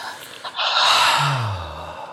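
Deep breathing in and out: a long, airy breath swells after a brief catch, then trails off slowly. It is fairly soft, with no talk.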